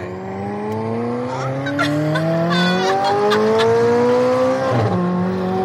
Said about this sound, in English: So can we actually go in the car? Yeah, let's go.